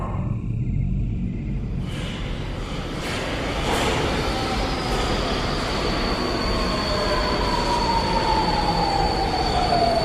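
A metro train rumbles loudly through an underground subway station, its wheels squealing in sustained high tones that glide slowly downward over the constant roar of the cars.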